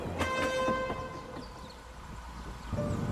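A train on rails, its last car pulling away, gives a steady low rumble. Sustained tonal whistle-like harmonics ring over it early on, and the rumble continues throughout.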